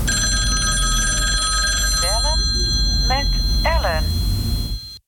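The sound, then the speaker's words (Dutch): Telephone ringing during an outgoing call: steady, high electronic ring tones run throughout, with brief voices over them in the second half before the sound cuts off abruptly. “Bellen met Ellen.”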